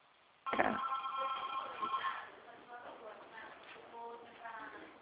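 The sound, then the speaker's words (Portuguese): A telephone rings with a steady electronic tone heard over a narrow phone line, then a voice talks faintly. “Ligação para mim.”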